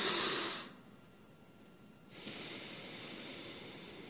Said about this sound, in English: So I'll give you two breaths here so you can watch. Long exhalation again.